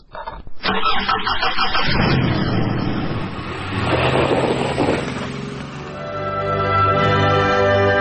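A car engine starts with a loud, broad cranking roar that surges and then settles into a steady, droning idle with a humming tone toward the end.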